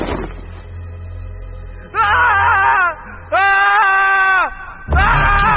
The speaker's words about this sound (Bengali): পরে দূর পাহাড়ের দিক থেকে শোনা গেল প্রবল চিৎকার